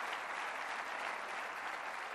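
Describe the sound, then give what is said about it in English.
An audience at a church service claps its hands in dense, continuous applause from many people, holding an even level throughout with no pauses. “So all you people that are sitting down, would you give these people a hand clap for being so kind?”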